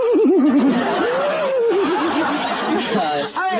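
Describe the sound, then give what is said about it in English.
A human laugh with a horse whinny worked into it: a quavering, high chortle that wobbles in rapid waves of pitch. It is loud and keeps going for a few seconds. “He gets a little horse whinny into the laugh.”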